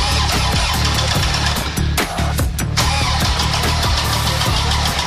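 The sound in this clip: A diesel engine cranks and starts, giving a loud, steady low rumble throughout with a few harsher bursts partway through.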